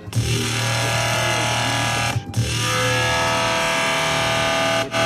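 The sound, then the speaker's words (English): Harsh, heavily distorted metallic drone from a piezo contact pickup run through a distortion effect. It is loud and continuous, with a brief dip near the middle and another just before the end. “Take the amount of distortion down because it's a bit.”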